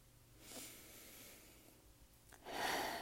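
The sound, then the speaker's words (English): A person draws a slow, deep breath, faint and airy, with a soft intake early on and a louder, fuller exhale-like rush of air near the end. “Deep breath.”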